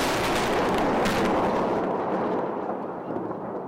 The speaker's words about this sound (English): When the United States invaded Iraq 20 years ago this week, some Pentagon officials talked of a bombing campaign that would cause shock and awe. Some opening salvos lit the night sky over Baghdad.